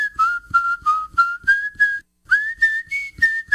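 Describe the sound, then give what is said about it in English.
A person whistles a cheerful tune in many short, clear, bright notes, split into two phrases by a brief pause, with the pitch stepping slightly up and down and nothing else heard. “What's happy sound like? Y'all come say hello to the whistler”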